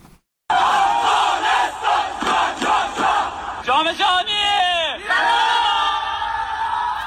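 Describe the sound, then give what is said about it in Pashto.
Crowd cheering and chanting loudly to welcome Afghanistan's national futsal team after it qualified for the futsal World Cup. A dense mass of voices gives rhythmic shouts and whoops, with a few rising and falling cries standing out near the end. “نړیوال جام ته د افغانستان د فوټسال د ملي لوبډلې لارموندنه په بیلابیلو ولایتونو کې د خلکو له تود هرکلی سره مخامخ شوې ده.”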